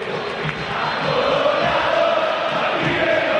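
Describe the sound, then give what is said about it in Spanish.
River Plate football fans cheering and urging on their team in a stadium during a match. A loud, continuous crowd roar holds steady throughout, without distinct individual voices. “El público de River, que no para de alentar.”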